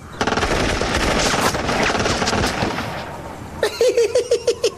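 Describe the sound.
Soldiers firing guns: a dense, sustained burst of rapid automatic gunfire, then a short series of evenly spaced, sharp, loud shots with a ringing edge.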